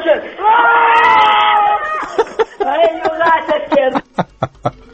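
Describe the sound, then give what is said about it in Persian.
A crowd of young men from Masjed Soleyman roars together in one loud, sustained shout, which breaks into choppy voices and short bursts near the end. “بچه های مسجد سلیمون بودن، همه یه نعره کشن.”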